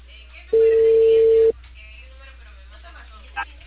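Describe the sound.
Ringback tone of a telephone on an outgoing call: a single steady mid-pitched tone lasting about a second, then a quiet open line with one faint brief click near the end.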